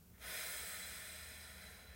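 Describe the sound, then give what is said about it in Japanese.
A long, steady exhalation during a relaxation breathing exercise, a soft airy hiss that starts after a brief quiet moment and holds evenly to the end, faint and alone. “はい吸って背筋と笑顔キープで吐きます”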